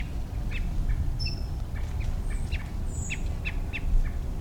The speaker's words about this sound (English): I think that's a quail also.